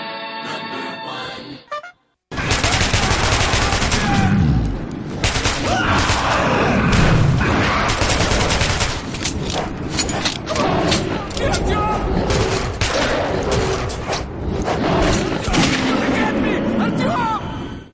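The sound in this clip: Gunfire in a Metro series video game: dense, continuous volleys of rapid shots with heavy booming thuds, loud and sustained throughout, with voices mixed in.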